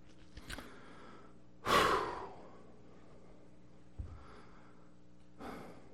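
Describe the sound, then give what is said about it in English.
A person breathing hard and catching their breath between stretches of speaking. One loud, rushing gasp of breath stands out, with a few fainter, shorter breaths before and after it and no talk. “I gotta catch my breath.”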